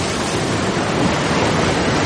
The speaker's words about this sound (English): God sent a big storm. The rain blew and the waves crashed.